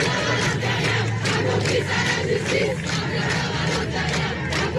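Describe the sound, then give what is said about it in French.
Feminist protesters chant in unison at Place de l'Hôtel de Ville in Paris in the evening, against ministerial appointments, with loud, rhythmic repeated shouts over continuous crowd noise. “Voilà ce qu'elle scandait hier soir, place de l'Hôtel de Ville à Paris.”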